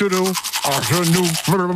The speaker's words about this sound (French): On réécoute l'extrait du brossage.